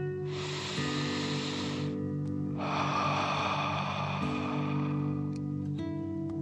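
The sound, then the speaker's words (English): A deep breath in and out: a soft, airy inhale, then after a short pause a longer hissing exhale, both heard over a steady, sustained musical drone. “Again, deep breath in and out.”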